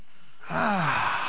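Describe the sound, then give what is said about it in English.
One deep breath taken during a guided breathing exercise, following a moment of quiet, drawn in and let out as a voiced sigh whose tone falls in pitch over under a second. “Now take a deep breath.”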